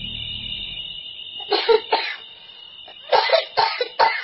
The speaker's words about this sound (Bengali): ঘরে কে কাশল? সে নিজে কি? কিন্তু তার তো কাশি হয়নি, অথচ কিছুক্ষণ থেকেই যেন খুক খুক শব্দ